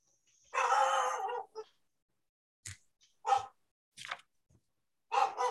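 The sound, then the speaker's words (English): A pet dog barks during a meeting with a few separate, fairly faint barks and yelps. A longer bark comes first, then shorter bursts at uneven intervals. “Is somebody being killed or something? Here, or a dog. Oh, that's my dog.”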